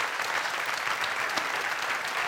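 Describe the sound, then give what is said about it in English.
Steady applause from an audience during a church sermon, dense hand clapping that holds at an even, fairly loud level throughout with no break. “Come on, give them a hand clap of praise.”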